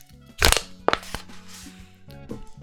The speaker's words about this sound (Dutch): dan ga ik het blikje nu kraken.